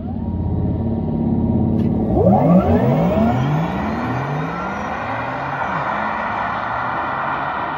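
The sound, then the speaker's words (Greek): The futuristic synthetic drive sound of a Porsche Taycan 4S electric car: a loud whirring hum with swooping tonal whines sweeping through the pitch range over a low rumble. “Που ξέρετε, έχει γίνει ολόκληρη μελέτη γύρω από αυτόν τον ήχο, γιατί δεν θέλει ο εργοστάσιο να έχει έναν ήχο ο οποίος μιμείται ένα βενζινοκίνητο. Αυτό είναι το εύκολο. Mm. Η ιδέα είναι να έχει ένα ήχο φουτουριστικό.”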